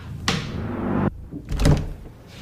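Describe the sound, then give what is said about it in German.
Heavy security door opening at a state police operations centre: a loud rushing scrape lasting about a second, a brief lull, then a shorter, muffled burst of noise. “öffnet sie eine schwere Sicherheitstür und ist angekommen.”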